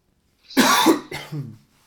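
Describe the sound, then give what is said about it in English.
A person coughs twice in quick succession. The first cough is loud and harsh, and the second is shorter and ends in a throaty rasp, with no other sound around them. “I keep coughing, dude. Do I have COVID? Summer COVID?”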